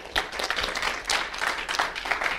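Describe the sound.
Church audience applause welcoming a guest speaker at a morning service: many hands clap together in a lively, uneven burst, with sharper individual claps popping out of the steady wash.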